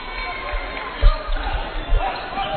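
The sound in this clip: Basketball dribbled during a college basketball game between Northwest and Pittsburgh State, a few low thumps of the ball standing out over steady crowd noise and murmuring voices.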